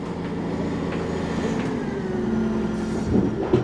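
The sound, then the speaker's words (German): A small mining truck hauling rock drives up inside a mine. Its engine rumbles low and steady throughout, with a slight swell near the end. “Ein kleiner LKW fährt auf uns zu. Er schafft das Gestein nach draußen, etwa 1 Tonne pro Fahrt.”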